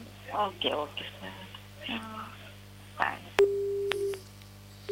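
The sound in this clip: Phone disconnect tone after a call is cut off: a voice talks briefly at first, then steady electronic beeps repeat in a short sequence.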